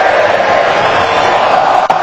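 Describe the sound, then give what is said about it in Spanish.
Stadium crowd at a football match in Vancouver, with Colombia leading 1-0 in the final minutes: a loud, dense, continuous roar of cheering voices that holds steady, with a brief dip near the end. “Escucha el público.”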